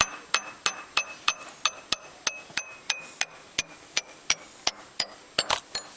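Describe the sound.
Drinking glasses holding different amounts of water are tapped one after another, giving many bright, ringing clinks at a steady, even pace, with a quicker cluster of strikes near the end.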